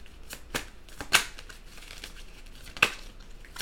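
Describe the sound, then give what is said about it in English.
Tarot cards being shuffled and scattering all over, heard as a quick run of crisp papery rustles and flicks, with two sharper snaps standing out among the fainter ones. “Okay, all these cards just went all over the place”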